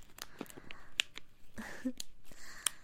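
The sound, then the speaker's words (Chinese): A plastic packet of XO-sauce beef jerky is torn open by hand, giving a quiet series of sharp crackles, crinkles and short rips in an irregular rhythm. “牛肉干给你吃吧。 姐姐帮你拆开哦。”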